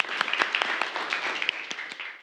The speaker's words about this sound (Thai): ปรบมือ